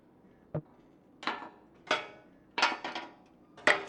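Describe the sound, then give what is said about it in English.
A screw being unscrewed in a video game produces a few faint metallic clanks and rattling knocks, separated by short quiet gaps. “Another screw! It's starting to give way.”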